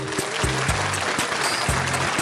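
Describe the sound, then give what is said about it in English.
A crowd cheering and applause sound effect plays at the start of a game show segment, a dense, steady roar of clapping and cheers. “And the crowd goes wild.”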